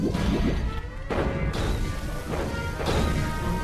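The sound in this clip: Staff weapon blasts hitting a steel blast shield: a continuous barrage of loud, harsh crashing impacts and noisy bursts that overlap with no quiet gaps.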